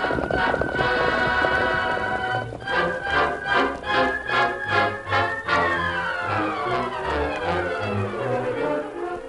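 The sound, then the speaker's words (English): Hoofbeats sound as horses are ridden along a trail near an arroyo, the masked man's horse Silver among them. A run of rhythmic galloping beats builds in the middle, set against sustained harmonic music. “Somebody had been watching from a nearby arroyo, and as the masked man and Indian stopped and rode back, a horseman left the arroyo after they went around the bend and rode along a nearby branch trail.”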